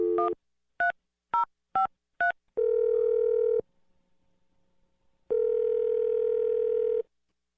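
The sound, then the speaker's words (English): Telephone keypad dialing: five short dual-tone beeps in quick succession, followed by two long, steady tones separated by a silent pause. “Dial in number.”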